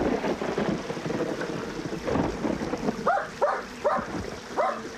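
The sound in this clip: Dog barking beside a stream: a few short, sharp barks in quick succession come near the end, after several seconds of dense, rumbling noise.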